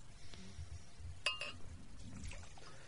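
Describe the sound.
Water rinses a glass at a beer tasting: a faint liquid trickle over a low background hum, with one sharp glassy clink near the middle.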